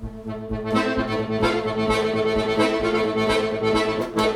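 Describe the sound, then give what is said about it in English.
A bellows instrument plays a tango melody with the bellows working, giving full, sustained reedy tones that swell and pulse steadily and stay loud throughout, with no voices. “But then when you get the bellows going, it sounds like this.”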